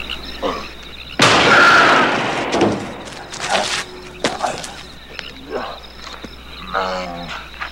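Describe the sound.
A single loud gunshot from a blank cartridge bursts out sharply, followed by softer knocks, thuds and voices that continue to the end.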